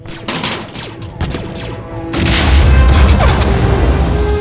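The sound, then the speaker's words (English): A thermal detonator explodes, thrown at shielded destroyer droids. A sharp blast near the start is followed by a massive, sustained roar of explosion and crackling debris that stays loud to the end. “This is a thermal detonator. This is a smoke grenade. Throw the detonator at the destroyers.”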